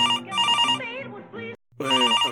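A telephone rings with a loud, electronic melodic pattern of rapidly shifting tones, broken by a brief silence before it starts again.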